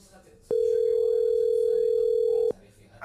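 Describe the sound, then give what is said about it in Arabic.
A telephone ringing tone while calling someone: a single steady, loud, mid-pitched tone holding for about two seconds, then cutting off abruptly. “خلني اتصل بو عبد الله.”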